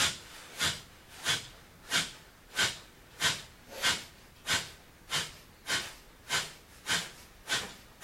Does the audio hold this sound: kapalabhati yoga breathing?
yes